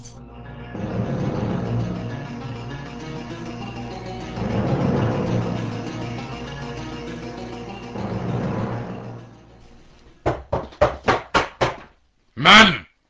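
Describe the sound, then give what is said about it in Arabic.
Knocking on a door in an animated series: after a long stretch of busy, music-like background, a quick run of six sharp raps comes near the end, followed by one louder, broader burst. “من يطرق الباب؟”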